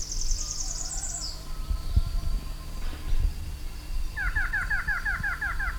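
Variable antshrike calling: a fast series of high, thin notes opens, then after a pause comes a longer run of repeated downslurred notes at a lower pitch, all over a steady low background hum.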